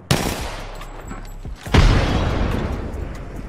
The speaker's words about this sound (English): Frag grenade sent.